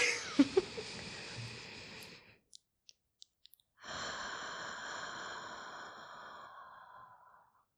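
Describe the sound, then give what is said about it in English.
Slow breathing during a guided pause, two long, soft exhalations separated by a near-silent gap with a few faint clicks, the second breath longer and fading gradually. “Okay, let's take a moment. Everyone, you can just breathe along with us right now.”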